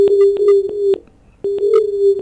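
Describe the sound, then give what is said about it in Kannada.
Telephone tone after a dropped phone connection, a steady low hum lasting about a second, breaking off briefly, then resuming, with faint clicks over it. “Hello hello, ದೂರವಾಣಿ ಸಂಪರ್ಕದಲ್ಲಿ ತಡೆಯಾಗಿದೆ. ಮತ್ತೆ ಪ್ರಯತ್ನ ಮಾಡೋಣ”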